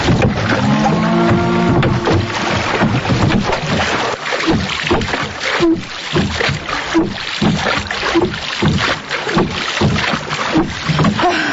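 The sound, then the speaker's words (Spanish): A boat is rowed on a river, with oars dipping and splashing in a steady repeating rhythm, loud and accompanied by wind noise. “Nunca había remado tan rápido. Hizo falta trompar de remo. Nosotros remando sí que habríamos andado rápido.”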